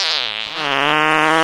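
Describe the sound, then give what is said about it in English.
Fart sound effect, a buzzy rippling drone about one and a half seconds long with a brief catch near the start before it settles into a slightly lower, steady, wobbling rasp. “And as he passed gas, he went”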